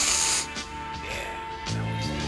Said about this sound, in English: I want you to try this. I want to sniff that. Come on, sniff some more.